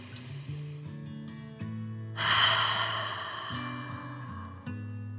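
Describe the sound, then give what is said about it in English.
A deep 'dragon breath' taken during a guided breathing exercise, a single long, airy rush of breath in the middle over soft, steady sustained tones. “Let your shoulders fall back down and take a deep dragon breath in and out.”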